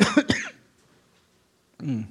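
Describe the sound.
Throat clearing from someone whose mouth is dry from wearing a mask: two quick, rough, rasping bursts close together, then near silence, then a voice starts speaking.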